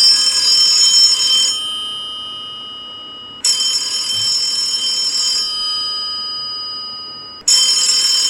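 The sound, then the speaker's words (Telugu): A landline telephone rings in three long, bright, bell-like electronic trills separated by pauses, each fading slightly before it stops, the last one cut off, with no voices. “Phone మోగుతోంది”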